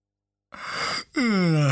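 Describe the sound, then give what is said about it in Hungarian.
A voice acts out a yawn: a loud, breathy intake, a brief break, then a long, voiced, drawn-out exhale whose pitch rises slightly. “Ásított Zödön.”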